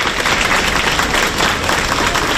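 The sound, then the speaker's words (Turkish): Dense, loud applause from waiting families greeting candidates as they leave a university entrance exam, a continuous wash of clapping with crowd noise mixed in. “Sınav bitti, kapılar açıldı. Saatlerce bekleyen aileler adayları alkışlarla karşıladı.”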